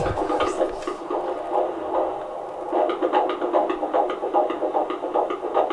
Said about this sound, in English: please, I just want to hear this heartbeat. And eventually, they found it, fortunately. And we'll play that clip